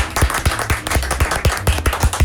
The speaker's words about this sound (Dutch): We gaan nog één keer van de klappen, mensen.